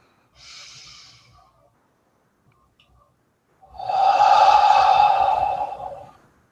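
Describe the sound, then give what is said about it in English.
A deep breath drawn in: a long, loud, airy inhale lasting a few seconds, preceded by a shorter, softer breath, with quiet pauses around them. “Deep breath in.”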